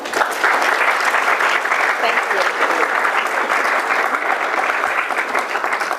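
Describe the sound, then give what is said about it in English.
Applause from a lecture audience welcoming a rabbi to give a talk: a continuous, even patter of many hands clapping, loud and sustained for the whole stretch with no voices over it. “Rabbi Plotkin's talk today is entitled, Inside the Garden, How the Jewish Interpretive Tradition Reads the First Humans. Please give her a warm welcome.”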